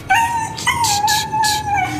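A dog left out on a freezing street whines and howls in a sustained, wavering, mid-pitched cry broken by a few whimpering pulses, loud and alone.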